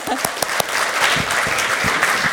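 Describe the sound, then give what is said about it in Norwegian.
Audience applause for NUG at an award presentation: a full, steady burst of many hands clapping, with a few sharper individual claps standing out at the start. “så tenkte jeg at jeg synes at NUG også fortjener en applaus for det arbeidet de gjør gjennom hele året”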